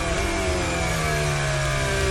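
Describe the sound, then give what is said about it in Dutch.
Onboard sound of a Formula 1 racing car: a loud, continuous, high-pitched engine whine that holds steady, its tone easing slightly lower toward the end. “Onboardgeluid van Oscar Piastri.”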